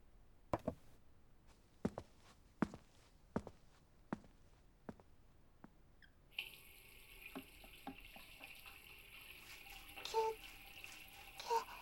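Running tap water pours steadily as a mug is washed, with faint clinks in the stream. Before the water starts, a series of sharp, evenly spaced knocks sounds alone in a quiet room.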